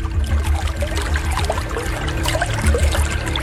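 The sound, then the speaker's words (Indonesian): Water trickling out of a small hole left by a stick, a continuous, steady dribbling and splashing flow over a low background hum. “Hei, lihat airnya keluar dari lubang lidi itu.”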